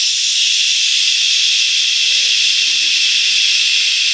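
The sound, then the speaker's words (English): A voice imitates water gushing from faucets with a loud, steady hiss held without a break. “what's that noise? And they go back to the janitor's closet where they had turned all the faucets on and water's pouring out of all the faucets which they had turned on”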